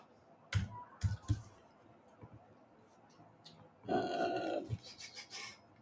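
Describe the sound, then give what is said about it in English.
Typing on a computer keyboard: a few sharp, scattered key clicks over a quiet background, then a brief busier patch of sound and more faint clicks. “I'll type it in here.”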